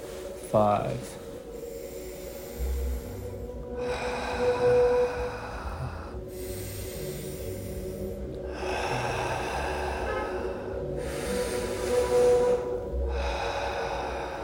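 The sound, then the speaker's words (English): Slow, deep breathing in through the nose and out through the mouth during a guided breathing exercise, with several long, airy breath cycles alternating at a steady pace. “And just try to breathe in through your nose and out through your mouth.”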